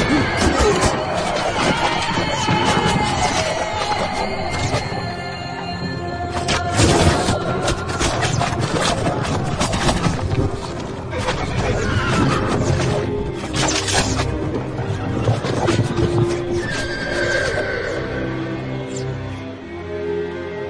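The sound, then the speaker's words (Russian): Horse whinnies and galloping hooves in a film battle scene of Mongol cavalry charging at archers, buried in a dense, loud, continuous mix of crashes and clattering battle noise. “Темуджин молча смотрит на исход первой атаки. Одинокий конь скачет в сторону орды Джамахи.”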